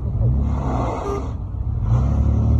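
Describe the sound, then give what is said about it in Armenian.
Car engine revving as the vehicle drives through a flooded street, a steady low rumble with a broad wash of noise that dips briefly midway and then swells again. “Հետո էլ արհեստական գետակի միջով անցնելիս բազմաթիվ մեքենաներ ծանր փորձությունների ենթարկվեցին։ Ոմանք փոսից դուրս գալ չէին կարողանում։”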